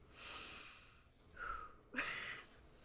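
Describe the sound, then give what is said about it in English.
A sharp, quick inhale of the kind an actor takes before speaking, heard as a few faint, airy breath sounds with no talk. The last breath is the most abrupt. “That's what I like to call an actor breath, when you just go, and then you start.”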